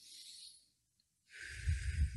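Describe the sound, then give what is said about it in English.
Two breaths in a calming breathing exercise, in through the nose and out through pursed lips: a soft airy rush, a pause of near silence, then a second, fuller breathy rush with low, puffy bursts of air. “You breathe in through the nose and then out through pursed lips as if through a straw. In through the nose.”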